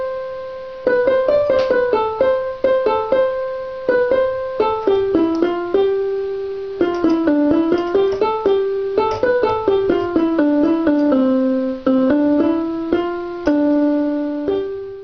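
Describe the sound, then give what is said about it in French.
An eight-year-old girl plays the theme of Ravel's Boléro by ear on piano. Many single notes form a simple, uneven melody in phrases with brief pauses, clear and unaccompanied. “Ce que vous venez d'entendre, c'est joué par une gamine de 8 ans qui a entendu le thème comme ça et qui le reproduit vaguement au piano, le thème du boléro de Ravel.”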